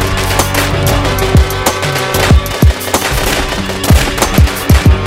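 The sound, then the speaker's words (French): A loud burst of gunfire: many sharp, cracking shots come in irregular clusters, quickening toward the end, over a continuous noisy rumble. “Et une pluie de balles lui défonce le torse, ainsi s'achève l'histoire de Little Horse.”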